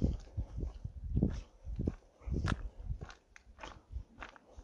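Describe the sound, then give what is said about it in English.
Footsteps crunching on gravel on a walk, with many steady rhythmic crunches, gritty and fairly faint, with no talk. “listen to the crunch of gravel under my feet, you know? But once again, going for a walk.”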